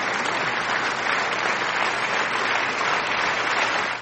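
An applause sound effect, a thick, even wash of many hands clapping at a steady level that cuts off abruptly at the end.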